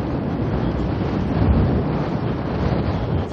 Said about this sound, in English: I turned north again. I've got the wind square in my face.